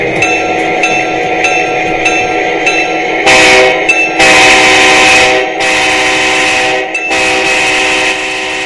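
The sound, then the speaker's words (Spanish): A scale model train locomotive runs loudly with its whistle sounding, giving strong sustained harmonic tones throughout, broken by several long bursts of broad, noisy sound. “esto que acabo de escuchar usted aquí en cabina, que me dejó sordo, por cierto, es justamente una máquina a escala.”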